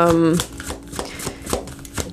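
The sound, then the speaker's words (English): Tarot cards being shuffled and drawn from a deck during a card reading: soft papery riffling with a few brief flicks and taps, after a short voice at the start. “All right, we're going to get four more cards.”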